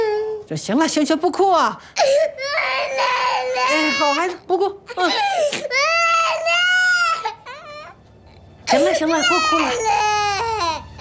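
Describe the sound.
A child cries loudly in long, high, wavering wails, broken by short gasping pauses between bursts.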